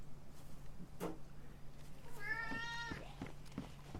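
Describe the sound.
A pet cat in a home lets out a single drawn-out, mid-pitched meow, with a few soft taps and knocks around it against a quiet background hum.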